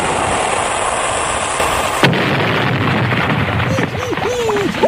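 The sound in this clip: A torpedo-firing sound effect: a loud, steady rushing hiss with a sharp jolt partway through, then wavering whistling tones over the continuing roar.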